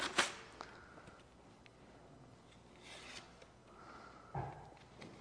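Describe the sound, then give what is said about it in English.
Faint papery rustling and scraping as a get-well greeting card is opened, with a sharp rasp at the start, soft rubbing throughout and a small bump near the end. “There we are. You've opened it.”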